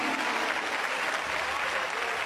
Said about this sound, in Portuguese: Essa igreja dá uma salva de palmas ou não dá? Dá! Palmas para Jesus, aleluia!